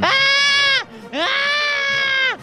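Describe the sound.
A voice imitates a woman crying and screaming with two long, high, shrill wails, each ending in a downward slide, separated by a brief lower break.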